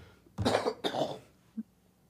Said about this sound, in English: Got a cough.